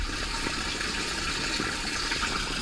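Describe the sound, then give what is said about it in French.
Water runs through a plumbing pipe in a steady, full rushing flow that holds at an even level with no breaks and no voices. “Avec Jean, on s'était quand même promis qu'on essaierait de vous faire écouter le bruit d'une canalisation. En ce moment, on est très canalisation, alors on va essayer là.”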